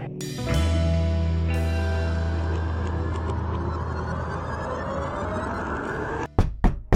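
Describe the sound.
A few sharp raps on a door sound at the very end, right after a long sustained musical drone fades out.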